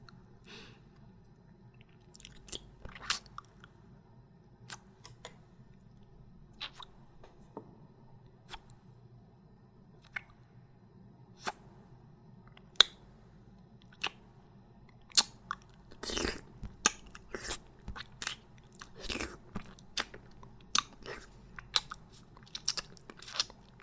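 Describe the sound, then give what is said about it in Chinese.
Crisp biting and chewing of food, with many sharp crunches at irregular intervals over a soft, steady background, growing denser toward the end; no talking. “外面的已经舔干净了，这里面的也让我吃吧。”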